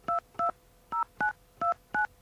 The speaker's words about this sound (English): Let's see if we can dial 10-digit number.